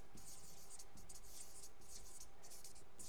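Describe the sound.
Handwriting as words are written down: soft, scratchy strokes in quick, irregular bursts, many short marks over a few seconds, faint and alone with no talk.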